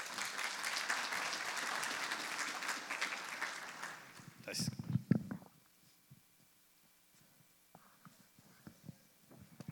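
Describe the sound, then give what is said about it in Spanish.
Applause at an international peace gathering at a university, a steady wash of clapping for about four seconds that fades out into quieter murmurs and scattered sounds. “Le damos también un fuerte aplauso,”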